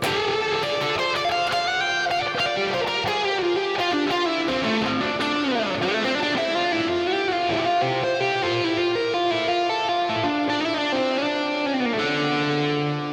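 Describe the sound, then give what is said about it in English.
Framus Stormbender electric guitar in a humbucker-style setting with full distortion, picked: loud, sustained, harmonically thick notes and chords ring continuously, with one note bending down and back up midway. “which is very much like an active humbucker. Full distortion, tons of pick attack. I'm playing with my fingers, but if we crank up the pick,”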